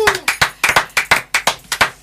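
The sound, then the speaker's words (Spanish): Hand clapping rings out in many sharp, evenly spaced claps, loud and crisp in a steady rhythm, with each clap decaying quickly before the next. “Aplausos.”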